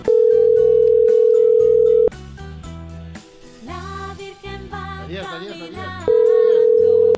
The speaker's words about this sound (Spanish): Vamos a marcar otro lugar. Ahí va.